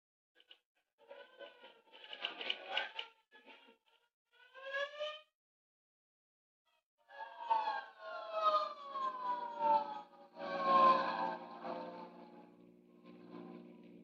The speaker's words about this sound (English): Say, there's a hook and ladder on the street right now.